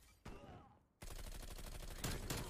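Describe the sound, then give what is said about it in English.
Gunfire in a video game: many rapid shots in a dense automatic burst, with one earlier short volley, then sustained loud firing that swells slightly near the end. “Yeah, I shot him too late. I lit that dude up.”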